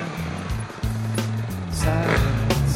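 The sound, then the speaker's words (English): Engine of a vehicle heading off into the desert in first gear in the Tonto National Forest, a loud, continuous drone with shifting low tones and no voices. “a full tank of gas, and the prayers of a world champion, I head off into the desert in first gear.”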